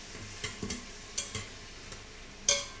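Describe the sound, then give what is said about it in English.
Stirring in a pot of minced garlic and butter on a saute setting: a few scattered soft clicks and scrapes over a faint, low sizzle. “So this is still on the saute setting, and this is gonna saute for about like 3 or 4 minutes until everything gets cooked.”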